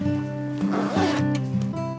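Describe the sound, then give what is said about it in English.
A zipper is pulled shut on an overnight bag at a hospital bedside, giving a short, rasping zip over a steady tonal background hum. “Malik zips up an overnight bag at Mary's bedside.”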